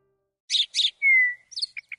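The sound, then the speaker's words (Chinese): A caged bird chirps alone and fairly quietly: two rasping chirps, then a longer whistled note, then a few quick, short high chirps. “挂起来的笼子左右摇摆，鸟儿扇着翅膀扑棱棱地从横杆上落下”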